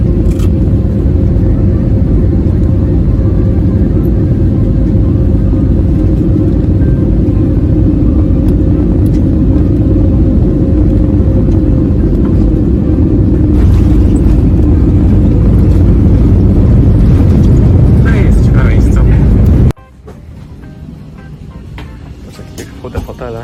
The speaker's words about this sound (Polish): A teraz na koniec jeszcze zobaczymy, jak będzie wyglądało lądowanie. Jesteśmy już nad terenem lotniska.